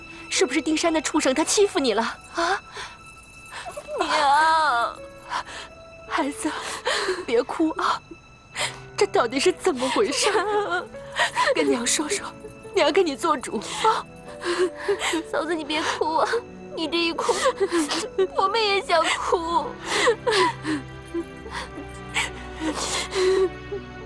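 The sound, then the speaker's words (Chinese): A woman cries, with whimpers, gasps and broken sobbing woven through a stretch of emotional talk. Several voices speak around and over her weeping. “嫂子，你别哭啊！你这一哭，我们也想哭。”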